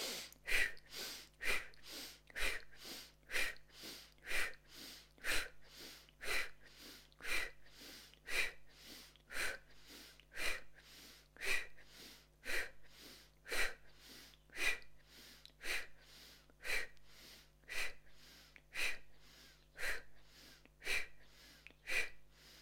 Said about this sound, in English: inhalation fast and full through the nose. And then rounding the mouth, we're going to exhale through the round lips, forcefully out. So it goes like this.